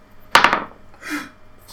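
A die is rolled during a Coloni board game: a sharp clatter of quick hard knocks, then a softer, brief rattle as it settles.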